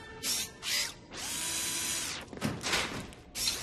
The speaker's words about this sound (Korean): 이것도 고칠 수 있겠어, 로키? 그럼, 당연한 말씀. 어? 드라이버.